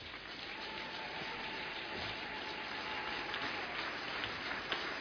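A church audience applauds, a faint, steady wash of dense clapping that holds an even level throughout without pauses.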